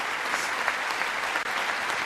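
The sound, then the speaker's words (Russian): Applause fills the Congress chamber as the president enters: a short, steady burst of many hands clapping, dense and even at moderate loudness for about two seconds. “Сам президент тоже готов. Пришел, вошел под аплодисменты в зал.”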